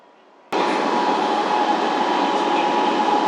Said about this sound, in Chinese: 今日列车已消毒。 篱笆房站到了。 We are arriving at 篱笆房 station。